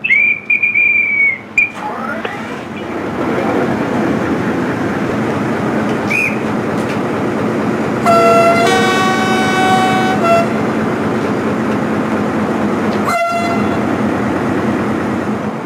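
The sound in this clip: A station master's whistle sounds as a steady high tone at the start, then a train departs from the station at Pontivy with continuous rumbling, and a loud multi-tone horn blast of about two seconds comes midway.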